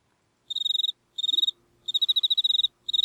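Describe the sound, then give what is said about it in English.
Crickets chirp outside a bedroom at night in four bursts of rapid, high-pitched pulsed trills separated by short gaps. The last burst is cut off at the end. “There's the crickets outside his bedroom as he's sleeping.”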